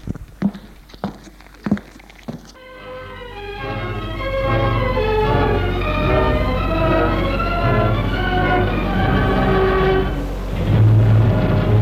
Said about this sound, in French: Il est dans le train qui roule à vive allure.